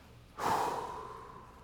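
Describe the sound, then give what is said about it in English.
A single deep breath, drawn and then let out in a soft, sigh-like exhale. It is brief and quiet, with no talk. “Everybody just take a deep breath. Go ahead right now.”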